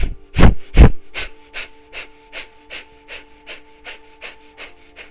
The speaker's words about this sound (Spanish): Y ahora vamos a comenzar a hacer la respiración solamente por la nariz, inhalando y exhalando más rápido. Todo el tiempo sin parar, es así.